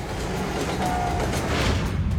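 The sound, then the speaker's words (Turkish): A train loaded with three tons of explosives rolls along rails in Alaska. It makes a continuous low, broad rumble at an even loudness, with no breaks. “Alaska'da 3 ton patlayıcı madde yüklü bir tren tehlikeli bir bölgede ilerliyor.”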